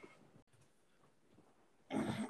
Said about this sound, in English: had to go shut my dog up.